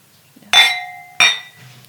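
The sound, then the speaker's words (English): Wine glasses clink together in a toast over organic wine: two bright, ringing chimes about 0.7 seconds apart. Each one leaves a sustained glassy tone that fades away, with no talk. “So here's to raising a toast.”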